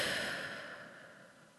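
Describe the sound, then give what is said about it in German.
A long, slow exhale follows a breath drawn in through the nose during a guided belly-breathing exercise. The airy, breathy rush starts strong and gradually fades away. “Durch die Nase ein, halten und wieder ausatmen.”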